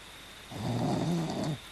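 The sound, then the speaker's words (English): A person snoring on a lower bunk beneath a clutter of equipment: one low, rough snore lasting about a second, swelling out of quiet and fading away, with no talk. “snores on a lower bunk under a clutter of equipment”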